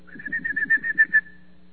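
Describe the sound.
A person whistling to call a dog: a quick, warbling, high whistle of many rapid pulses at a fairly steady pitch, ending in a short held tone that fades out.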